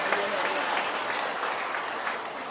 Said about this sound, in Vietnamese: Tôi xin hoan nghênh những cánh tay le que đó, cho chàng pháo tay.